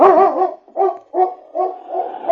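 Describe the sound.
A large dog gives a few loud, drawn-out barks with a tonal, whining quality, separated by short pauses, with no talk over them.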